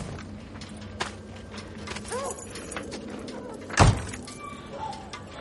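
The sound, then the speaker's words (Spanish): Someone gets out of a car in a film scene: a car door shuts with a single heavy thud about two-thirds through, over a low, steady background hum and a few faint knocks. “Baja del coche.”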